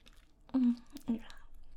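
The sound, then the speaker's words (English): Chocolate squished and chewed in a mouth, giving soft, wet chewing noises broken by two brief voiced murmurs, all fairly quiet. “Maybe if I squish another chocolate in your mouth.”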